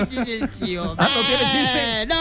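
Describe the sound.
A voice imitates a goat's bleat with a nasal, quavering cry that wavers up and down in pitch and holds for about two seconds, breaking briefly partway through.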